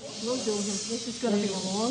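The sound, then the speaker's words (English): Air hissing into a big inflatable monkey decoration, a steady broad hiss running throughout while a voice speaks over it. “This is going to be a long job. Oh, this is a big monkey. He needs a lot of air.”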